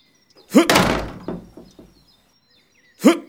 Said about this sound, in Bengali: দরজাটা ভাঙতে হবে